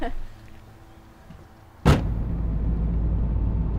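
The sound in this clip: A car door shuts with a single sharp thud, followed by a steady, loud, low engine rumble as the car drives off.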